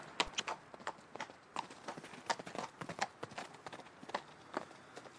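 Horse hooves clip-clop in many quick, uneven strikes, faint and steady with no talking.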